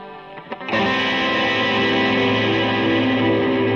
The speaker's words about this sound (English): We got hella delay going on. Let's turn the reverb off. We got major delays.